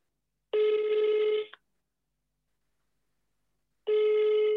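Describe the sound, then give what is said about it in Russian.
Telephone ringback tones heard while a call is being placed: two steady buzzing rings, each lasting about a second, separated by a long stretch of silence, with no voices. “Хорошо, давай звоним. Звоним.”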